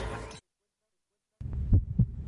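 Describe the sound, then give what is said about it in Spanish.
A heartbeat sound effect: two deep, muffled thumps in quick succession rise out of a second of silence, after a short burst of another sound that cuts off abruptly at the start. “¿Sientes ese latido?”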